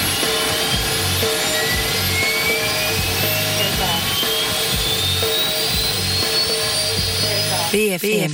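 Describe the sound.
Jet aircraft taking off: a loud, sustained roar with thin engine whines climbing slowly in pitch throughout, steady in level from start to finish.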